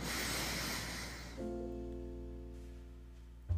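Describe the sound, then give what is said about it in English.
A deep breath taken in: a quiet, broad airy rush lasting just over a second that ends abruptly, followed by a steady low humming drone that continues to the end. “Take a deep breath right now.”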